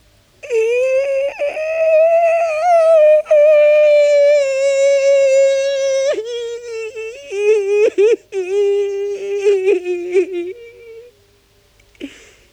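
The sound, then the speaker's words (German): A man cries with a long wailing moan, one steady voiced tone held for several seconds before it breaks into shorter, wavering sobbing sounds and then stops. “Aus dem Mund kommt ihm ein langer Klageweibton.”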